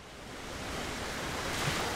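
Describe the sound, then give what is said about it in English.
Waves break on a Lake Michigan beach at Deland Park, making a continuous rushing surf that swells slightly louder over a couple of seconds, with no voices. “At the Jacobs' recently opened snack shack and rental location at Deland Park, it was warm and sunny as waves crashed on the beach.”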